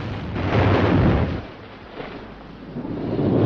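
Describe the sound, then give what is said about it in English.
Naval shells explode in water, throwing up plumes of spray: deep booming rumbles, one swelling loudly and fading after about a second, then a quieter stretch before another rumble builds toward the end. “Plumes of spray erupt out of the water as two more shells explode.”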